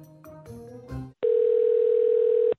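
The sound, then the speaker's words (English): A telephone line sounds while calling an office: a brief run of mixed tones, then a short silence and a single steady mid-pitched tone held for over a second before cutting off. “So I dialed up the mayor's office to see when they could fit him in.”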